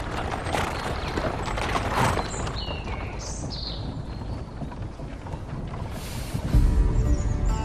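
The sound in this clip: Hooves of a horse-drawn carriage clip-clop steadily through a dense, continuous wash of rolling noise, growing louder and fuller near the end.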